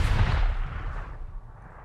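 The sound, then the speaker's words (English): A single loud pistol gunshot fired by a highwayman at a car, a sharp booming blast at the very start that rolls off into a long fading low rumble. “That's when the highwayman drew a gun and pulled the trigger.”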